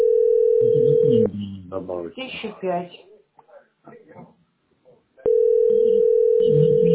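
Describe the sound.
Steady telephone dial tone before dialing, a continuous pure hum that cuts off when a woman starts talking, then returns unchanged after a short silence.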